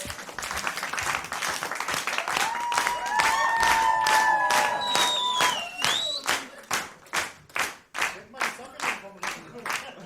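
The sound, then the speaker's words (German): An audience claps together in rhythm to a steady beat. Rising whistling glides sound over the claps in the middle, and the beat stands out more sharply and evenly toward the end. “Können wir mal im Takt klatschen, wenn er so hochzieht?”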